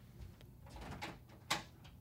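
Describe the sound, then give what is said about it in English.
Knocking on a door: a few dull, soft thuds, then one sharper, louder knock that stands out near the end, with a faint background murmur throughout. “Someone's knocking on the door.”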